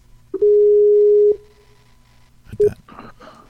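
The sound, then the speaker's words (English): A telephone dial tone sounds while a call is being placed: a steady mid-pitched tone lasts about a second, then stops. After a pause a much shorter tone follows, then a few soft clicks and rustles. “About to call Christopher. Here we go.”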